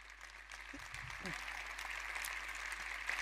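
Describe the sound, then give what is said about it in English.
Audience clapping at a talk: a soft, steady patter that swells slightly and holds, with a voice speaking briefly over it early on. “let's stop clapping so I can finish this one.”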